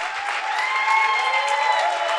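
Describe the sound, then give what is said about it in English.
A church audience claps their hands, an even, continuous patter of many hands at a moderate level that holds steady from start to finish. “Clap your hands for Jesus. Your hand clap is very weak.”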